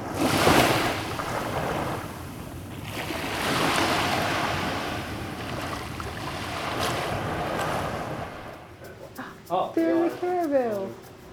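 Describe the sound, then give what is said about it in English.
Waves wash onto the foamy shoreline of a virtual, prehistoric lake where Lake Huron will one day be. A continuous rushing surf swells and eases, louder near the start, then ends in a few brief tonal sounds. “There's digital foam at the shoreline, and as I get closer, I can hear it.”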